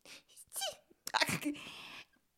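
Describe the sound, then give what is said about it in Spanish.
A person sneezes: breathy, voiced sounds build into a loud, noisy burst that trails off into a hissing exhale, heard alone without talk. “Me he dado cuenta que me doy mucho asco. Saco la lengua cuando estornudo.”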